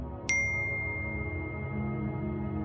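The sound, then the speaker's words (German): A single WhatsApp message notification ding sounds as a short, bright chime with a lingering ring over a low, steady background hum. “Am 28. Oktober 2016 bekommt sie vom Papst persönlich folgende Nachricht über WhatsApp.”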